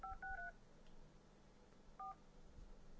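Touch-tone keypad beeps sound as a phone number is dialed to call someone. Three quick tones come in a row, then a pause and a fourth tone, all faint and clean with no talk.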